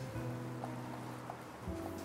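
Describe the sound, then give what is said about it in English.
Rain gives a steady rushing wash over low, sustained droning tones. “So the reason that you're standing in the rain is that the brass sent you here.”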